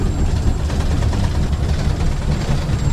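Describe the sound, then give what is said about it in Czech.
A steam locomotive called Všudybylka, built in 1925 and formerly run at Letohrad, is heard from the driver's cab as a loud, dense, continuous roar and rumble with no pauses. “Poprvé v životě jedu parní lokomotivou hned vedle strojvedoucího, je to všudy bylka, dopředu koukám malým okénkem.”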